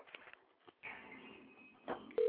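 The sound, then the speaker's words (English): Telephone line sounds from an incoming call on another line: muffled, faint line noise and brief clicks, then a steady electronic tone that starts abruptly at the very end. “Calling me on my other line. Okay, well, let me put that one back on mute, because apparently they're doing something.”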